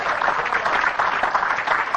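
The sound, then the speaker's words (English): Congregation clapping hands during a church service, a dense, steady patter of many hands that stays even in loudness throughout, with no clear pauses. “Give the Lord a hand clap for that.”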